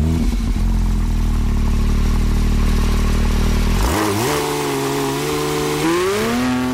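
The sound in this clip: Sports car engine, the street version of a rally car, idles with a loud, low, steady drone, then revs sharply to a higher pitch partway through, holds there, and climbs a step further near the end.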